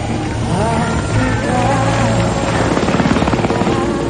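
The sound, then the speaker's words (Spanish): A helicopter lifts off in a 2003 war-action setting, its engine and rotor making a steady loud droning roar with a low hum that turns into a distinct rhythmic rotor chop near the end. “El helicóptero inicia el vuelo, mientras los niños corren a despedirse de él.”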